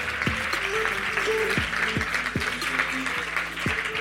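Applause and cheering rise from a live festival audience in Paris over the show's theme music, whose steady beat and sustained tones run beneath the clapping.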